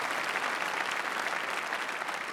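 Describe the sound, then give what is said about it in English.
Audience applause for single parents at an event: dense, steady clapping from many hands, even in loudness throughout. “Would you give a big round of applause for all of our single parents that are here today?”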